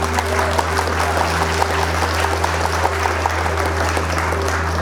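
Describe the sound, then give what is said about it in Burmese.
Applause fills a meeting hall with steady, dense clapping that holds at an even level throughout, over a constant low hum. “စကားမဆုံးသေးခင်မှာပဲအစည်းအဝေးခန်းမာတွေကလက်ခုပ်အားပေးတာများ ထွက်ပေါ်လို့လာပါတော့တယ်”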